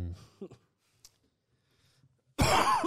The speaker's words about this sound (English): It's not a COVID cough. Vape, bro.